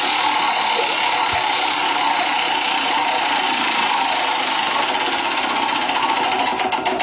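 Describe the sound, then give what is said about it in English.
Prize wheel for grocery vouchers spinning, its pointer rattling in a loud, dense stream of rapid clicks that grow more distinct toward the end. “We've got these Woolworths Group grocery vouchers here, $200 worth. I've got to spin the wheel.”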